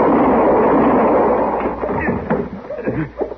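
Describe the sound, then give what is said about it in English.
Gunfire in a western radio drama, a loud noisy blast that rolls on for over a second before dying away under a man speaking. “He shot me, Marshal. I got a right to protect myself.”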